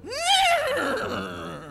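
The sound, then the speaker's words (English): A single loud whinny from a white stallion, rising quickly then wavering and falling in pitch, trailing off over a couple of seconds. “And riding in on a white stallion is your new friend, Baston, legally distinct from Gaston from Beauty and the Beast.”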